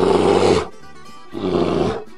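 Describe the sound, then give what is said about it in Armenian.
A bear roars twice: two long, rough, loud bursts separated by a short quiet gap, with no other sounds. “Արջը երբ զգաց մեղրի բույրը, խելագարվեց։”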